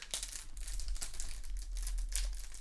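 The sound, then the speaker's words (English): Crinkling and tearing of a hockey trading card pack wrapper as it is opened, a continuous crisp rustle with many small sharp crackles throughout. “I like opening up the cards on the show. It's a fun way to wrap up the show.”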